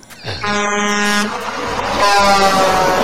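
A truck's air horn sounds two loud, sustained, brassy blasts with a short gap between them.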